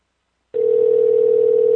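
A telephone dial tone sounds while a call is being placed, cutting in abruptly after a moment of silence and then holding one loud, steady, unbroken pitch to the end.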